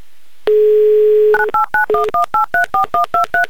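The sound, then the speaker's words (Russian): Telephone dialing on a call to Saint Petersburg: a steady dial tone, then a quick, even series of short two-tone keypad beeps, loud and clear, with no voices. “И еще раз мы звоним в Санкт-Петербург.”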